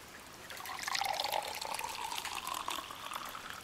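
Orange juice pouring into a glass, a steady liquid splash and gurgle lasting several seconds with no talking.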